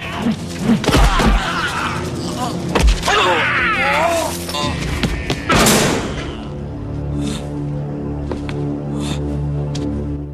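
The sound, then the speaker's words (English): Fight blows in a freight container, ending with a body slammed against the container wall: several heavy thumps and sharp whacks strike in the first half, then a sustained musical score carries on beneath quieter clatter. “The two men fight, kicking and spinning, until a ferocious and decisive chop and push from Chen sends Chad reeling back against the wall of the freight container.”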